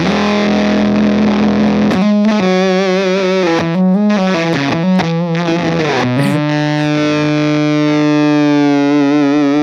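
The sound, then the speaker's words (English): A loud fuzz tone from a mixing board set up as a distortion effect: heavily saturated and buzzing, it steps and bends through several pitches, then settles into a long, steady droning note. No voices are heard. “I like using this to set up as a fuzz sound.”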